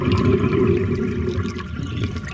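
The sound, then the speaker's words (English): Water drains from a washbasin after the plug is pulled, a steady low rushing gurgle that holds fairly even and eases slightly toward the end. “Now let out the plug.”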